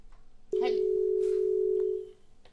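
A steady telephone line tone sounds as a caller is connected: one unbroken, mid-pitched beep holds flat for about a second and a half, then stops abruptly, leaving quiet background.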